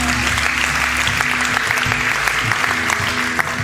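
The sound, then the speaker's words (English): An audience at a church service applauds in steady, sustained, dense clapping that fills the whole stretch without letting up. “Come on, one more time. Give them a great hand.”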